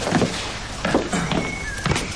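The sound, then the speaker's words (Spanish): A window being closed in an old palace room, heard as a few dull thumps and knocks over steady background noise. “cierra la ventana”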